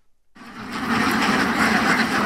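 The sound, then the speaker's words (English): Hundreds of Indian runner ducks quack as they march into a vineyard on a wine estate in Stellenbosch, South Africa. After a brief silence, a dense, loud chorus of overlapping quacks starts abruptly and continues steadily. “This is the sound of hundreds of ducks headed straight toward me.”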